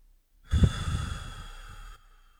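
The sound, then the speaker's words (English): A long, deep breath taken to cure hiccups: one loud, airy rush of breath lasting about a second and a half, alone with no talk. “Well, what I usually do... take long, deep breaths.”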